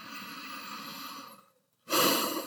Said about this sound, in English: I invite you all to take a few deep breaths.